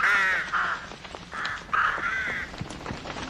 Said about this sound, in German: Lautes Gekrächze. Ein Schwarm Krähen, der plötzlich vom Himmel zu fallen schien.